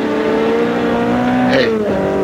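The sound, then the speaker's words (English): A sports car speeding past at close to 90 or 100, its loud continuous engine roar dipping in pitch as it goes by, with a brief brighter swish at the moment of passing. “A sports car looked like a Simonetti. I couldn't tell. Went by me too fast. Must be doing close to 90 or 100, heading west on Trumbull.”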